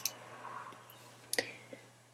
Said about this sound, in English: I can just click on each article to show that little bit when I want to see it.